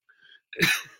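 A single sharp cough, loud and abrupt, heard alone after a brief faint sound.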